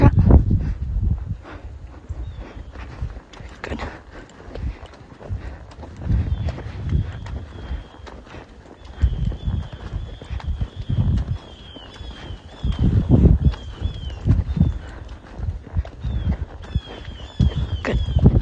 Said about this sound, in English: You just want that nice, relaxed trot.